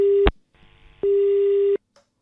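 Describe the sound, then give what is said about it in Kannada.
A telephone tone sounds after a call is cut off: two loud, steady beeps at one pitch, the second longer, with a stretch of faint line noise between them. “ಕರೆ cut ಆಯ್ತು.”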